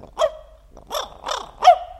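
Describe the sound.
A small dog barks a quick series of sharp, yappy barks, spaced unevenly and standing alone against near silence.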